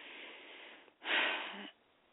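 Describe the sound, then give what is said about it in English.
A single heavy breath, a loud, breathy exhale lasting under a second. It rises out of a faint steady hiss and falls away again, with no voices. “I don't mean to breathe so hard like that”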